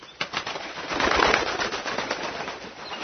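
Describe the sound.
A raven's wings flapping as it flies up onto a branch, heard as a soft, rushing flutter that swells in the middle and then eases off.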